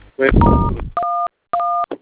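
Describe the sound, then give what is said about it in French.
Telephone keypad beeps from buttons pressed during a customer-service call about a mobile money account. Three short, clean tones sound, the first over a voice and the next two alone, separated by brief silences. “Monsieur, s'il vous plaît, arrêtez de manipuler le téléphone, s'il vous plaît, d'accord?”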